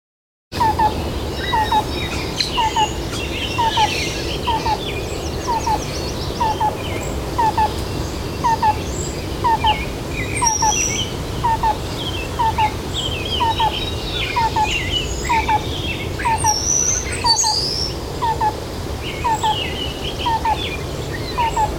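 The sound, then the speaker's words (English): Tree swallow calls, short chirping notes repeated at a steady, even pace throughout, with occasional higher twittering notes above them over a constant background hiss. “Tree swallow.”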